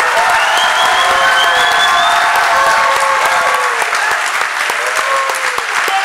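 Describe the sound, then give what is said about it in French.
An audience gives God a standing ovation, with loud, sustained applause and cheering voices throughout. “Alors, est-ce qu'on fait un standing ovation à Dieu?”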